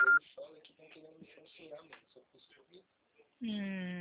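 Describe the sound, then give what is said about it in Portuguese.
A phone call being dialed: people talk at first, then a steady electronic ringing tone starts on the line and holds to the end. “Tenta ligar direto pra ele. Eu tô ligando direto pra ele mesmo,”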